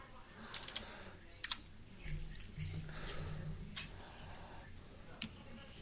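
Typing on a computer keyboard during a tabletop role-playing game session, heard as faint, sparse, irregular key clicks with a few sharper taps over a quiet, low background.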